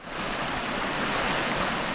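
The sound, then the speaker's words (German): Flowing water from a stream in the Taunus hills running high after heavy flow, a continuous rushing hiss with a low rumble beneath. It stays steady and fairly quiet throughout, with no voices or breaks. “Der Emsbach im Taunus führt jetzt reichlich Wasser.”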